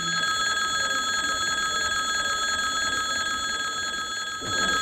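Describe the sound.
Electric bell ringing in a parliamentary chamber in the Dutch parliament, a steady, loud, continuous metallic ring held at one pitch and then cut off abruptly near the end.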